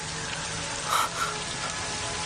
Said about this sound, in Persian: خوب نیست، بارون شدیده، کجا برید؟